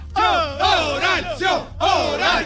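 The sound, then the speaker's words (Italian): Football fans in a stadium curva chant in unison, a loud crowd of voices repeating several short, rhythmic chanted phrases back to back. “Sentite. Questa è la curva.”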